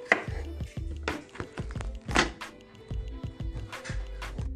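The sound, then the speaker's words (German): Garlic cloves being chopped with a knife: many quick, irregular thuds of varied loudness, with a few sharper, louder strikes among them. “Ich habe jetzt den Knoblauch, den Knoblauch gehackt, also die Knoblauchzehen.”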